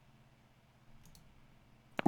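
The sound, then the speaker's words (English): An ATM taking in a bank card while pounds are exchanged for dollars: a faint pair of mechanical clicks, then two sharper, louder clicks close together near the end, over a low steady hum. “Okay, so I'm at an ATM right now. I have to enter my card. I hear it.”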